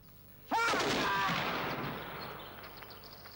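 A firing squad's rifle volley cracks out once as a single sharp blast, followed by a long ringing tail that slowly dies away.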